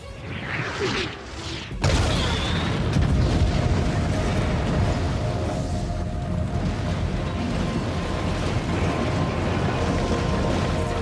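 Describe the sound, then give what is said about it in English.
Explosion of a spaceship destroyed by a laser blast fired from another ship at a planet: a sudden loud burst gives way to a dense, sustained roaring rumble lasting many seconds, preceded by a softer whooshing sweep. “Moff Gideon's ship fires a laser blast at the planet, destroying the Razor Crest.”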